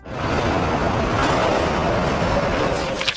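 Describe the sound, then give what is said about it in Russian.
A metro train rushes past in a loud, continuous roar with rattling wheel and carriage noise, holding steady for about three seconds before a few sharper clicks at the end. “Метро проносится. Вжик.”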